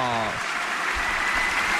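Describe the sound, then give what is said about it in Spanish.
A tennis crowd applauds and cheers at break point for Jodar, with steady clapping under a commentator's voice. “vuelve a levantar al público Jodar, son dos bolas de break para el tenista de 19 años.”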